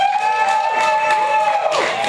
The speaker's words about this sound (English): We're gonna do it by applause, but so you can only vote once, right? That's how we keep it even. So who at this moment would vote for Metal Gear Solid 5?